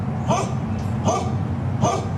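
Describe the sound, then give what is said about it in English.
Dogs barking at a property where garbage has piled up: three short, sharp barks evenly spaced over a steady low background noise. “Those dogs are saying, please help us.”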